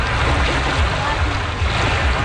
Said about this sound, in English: That's the sound of paddlers embarking on the last Paddle the Don event back in 2019.